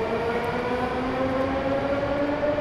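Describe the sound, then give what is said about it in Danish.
A Moscow metro train runs toward the city centre, a steady loud rumble with a sustained electric whine held throughout. “Det I hørte der var lige tog, der kørte ind mod centrum af Moskva igen.”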